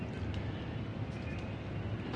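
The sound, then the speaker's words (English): Open-air ambience on the sun deck of a Nile river boat at Aswan: a steady rushing wash of wind-like noise over a low rumble, with a few faint higher sounds and no talk. “We are in Aswan, and we are in the top deck, the sun deck, of a Nile River boat, which will be leaving soon.”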